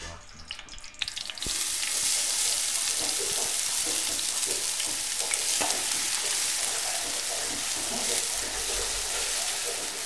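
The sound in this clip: Shallots sauté in a pan in a restaurant kitchen as a head chef cooks: a steady, dense sizzle starts after a brief clatter at the start and runs unbroken and fairly loud to the end.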